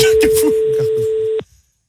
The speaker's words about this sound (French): Vous vous rendez compte que le room service du Meurice ne répond pas. C'est combien la nuit? 5000? Ouais, je pense. Non, il s'énerve là sur la sonnerie.